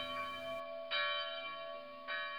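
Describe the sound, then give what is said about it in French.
Church bells of Miliana ring with a long, sustained metallic hum, and a few fresh loud strikes swell out of the steady resonance. No voices are heard. “Voilà les cloches parties, nous en avons pour longtemps.”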